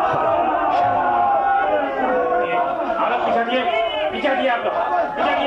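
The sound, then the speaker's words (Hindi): A crowd shouts slogans at a gathering that is growing unruly while people wait for an official. Many voices chant and shout continuously in a dense, loud mass. “अरे अब ये नारे क्यों लगने लगे साहब? लगता है चीफ साहब आ गए।”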